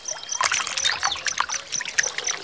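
Water trickling from drinking fountains: a faint, steady patter of droplets broken by irregular small splashes.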